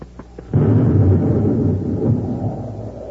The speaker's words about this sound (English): somebody or something shooting at us. It's a spaceship coming in low. This time they won't miss. Come on, get out of here before they fire again.